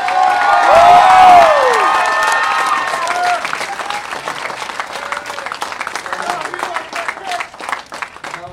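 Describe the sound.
Crowd clapping and cheering for a speaker at the 2016 Global Marijuana March rally in Texas, opening with loud applause, shouts and a shrill rising-then-falling whistle, then settling into sustained, slightly softer clapping.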